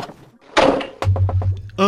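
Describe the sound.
A toilet-room door swings open with a short, loud rushing scrape and then shuts with a dull thud, after which a voice speaks.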